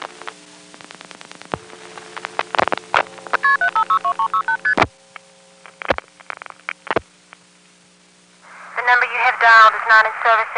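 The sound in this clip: Touch-tone dialing of a seven-digit vacant number in Greenville on an exchange line served by an NX1 machine: a steady low line hum under a rapid series of tone bursts and sharp clicks, then quiet, then a voice begins near the end.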